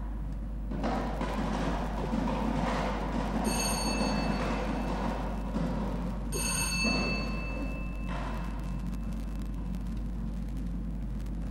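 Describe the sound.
A lottery number drum spins at a Lao national lottery draw, a continuous rumbling whir lasting about eleven seconds, broken twice by short bright ringing tones partway through.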